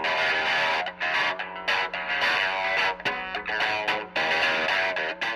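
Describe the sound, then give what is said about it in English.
A distorted electric guitar built from gun parts, including AK-47 magazines and barrels from rifles and 9mm pistols, plays in Mexico City. It grinds out thick, sustained, fuzzy chords with a few brief dips between strums and no voices. “I'm playing an electric guitar made out of guns. Pieces of guns. Clips from AK-47s. Barrels from rifles and 9mm pistols.”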